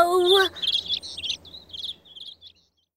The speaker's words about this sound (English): Oh, those aren't eggs. They're baby birds.